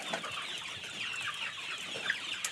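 Chickens cluck and chatter inside a barn during an evening check of the flock, a dense, steady murmur of many birds overlapping throughout, with no one speaking.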